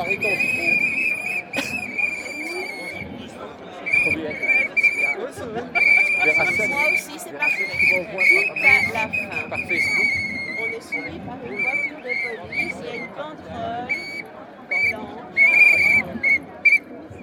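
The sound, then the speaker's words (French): Shrill whistles blow again and again through a noisy crowd. Long piercing blasts start and stop over dense babble, and voices are heard throughout. “C'est qui siffle dans les sifflets? C'est vous?”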